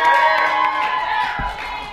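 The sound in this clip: An audience at a live question-and-answer event cheers with scattered clapping, a sustained crowd roar that eases slightly over two seconds.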